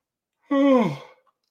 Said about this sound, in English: I need to stop yawning in these morning shows.